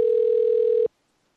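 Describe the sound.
A telephone line tone while a call is being connected: one steady, single-pitch tone holds for under a second, then cuts off abruptly into silence.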